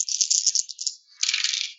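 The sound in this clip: Five dice rattling and rolling during a tabletop role-playing game. There are two bright clattering bursts with no talk: the first lasts just under a second and the second follows after a brief pause.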